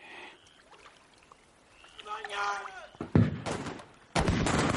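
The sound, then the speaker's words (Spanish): Arquebus gunfire in fog: a couple of loud, sharp blasts cut through a quiet stretch, the last one spreading into a sustained, rough roar. “Fogonazos de disparos de arcabuz rompen la niebla.”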